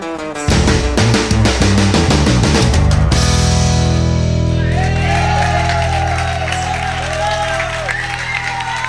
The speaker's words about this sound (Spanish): Essas palmas são exclusivamente para o bacalhau.